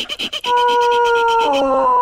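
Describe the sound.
Lucas, a pet dog, lets out a sustained, tonal whining howl after a few brief choppy sounds. Its pitch steps lower near the end.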